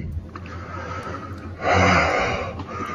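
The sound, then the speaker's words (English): Heavy, ragged panting from someone out of breath after a scare, a steady run of rough breaths that swells into a louder gasping burst midway and then settles back. “Out of breath. That was scary.”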